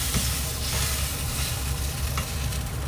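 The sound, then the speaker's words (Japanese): Beef tongue, lamb and green peppers sizzle on a grill while the peppers wipe up charred bits of meat. A dense, loud, steady hiss and crackle runs unbroken throughout, with no voices. “どんどん焼いていきますちょっとね肉の焦げ焦げがあるんでピーマンでキレイキレイして”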